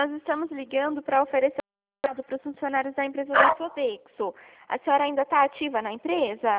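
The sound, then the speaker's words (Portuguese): A dog barks a few times in the background during a phone call, with the barks partly masked by two people talking over them. “Aqui tem um cachorro latindo.”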